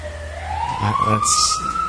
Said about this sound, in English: Fire truck, let's pray for whoever is on the receiving end of that truck right now.